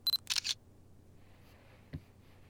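A camera shutter fires as a photo is taken: a few sharp, bright clicks at the start, then near silence broken by one faint single click later.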